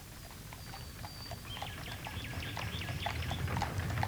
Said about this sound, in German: In Mailand hat er sich von einem englischen Major einen leichten, gut gefederten Reisewagen und zwei kräftige Füchse gekauft.